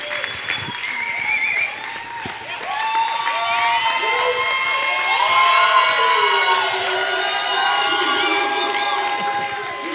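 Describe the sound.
A church audience on its feet cheering and applauding to welcome pastors, sustained loud clapping with whoops and shouts throughout.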